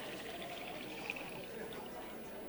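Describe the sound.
Wine being poured, a faint, steady liquid hiss with no clear breaks.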